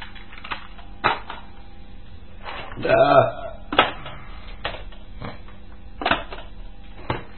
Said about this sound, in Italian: Metto un'altra cassetta che va bene. Cambiamo nastro.